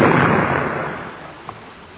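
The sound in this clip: A gunshot fired at a bat: a loud blast at the very start that decays into a long, rumbling tail, with a faint pop near the end.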